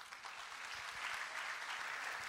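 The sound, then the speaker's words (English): Audience applause in recognition of students at a college event, a steady, dense patter of many hands clapping that holds at an even level throughout. “I would like everyone to give a round of applause in recognition of our students.”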